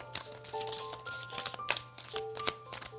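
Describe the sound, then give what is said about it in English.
Chakra cards are pulled and shuffled in quiet, quick papery riffles and snaps, heard as a few bursts of activity, with soft sustained melodic tones beneath. “And the cards that we are pulling are chakra cards.”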